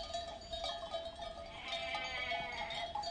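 Sheep bleating in a mountain pasture clearing beside a shepherd's hut, a steady bed of overlapping, continuous calls with no voices.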